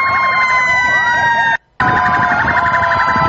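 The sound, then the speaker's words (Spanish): Emergency vehicle sirens sounding together outside during a mass siren event involving ambulances, a rescue vehicle and a fire engine. Several loud, overlapping, warbling wails continue steadily, broken only by a brief moment of silence midway. “sirena afuera”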